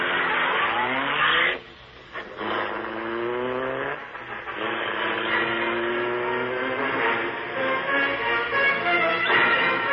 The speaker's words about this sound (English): The great car roared into life. A section of the wall in front raised automatically, then closed as the gleaming Black Beauty sped into the darkness.